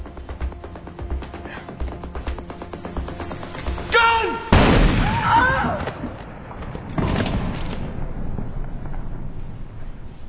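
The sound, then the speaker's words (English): A gunshot rings out during a tense confrontation: a single loud, sharp blast with a ringing tail, followed by further rough noise. “Hold your fire. I fired that shot.”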